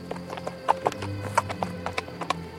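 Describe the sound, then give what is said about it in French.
Hooves of a walking horse clip-clop in a steady, even rhythm, crisp knocks repeating several times a second alongside a low continuous rumble. “Le cheval marchait gaiement.”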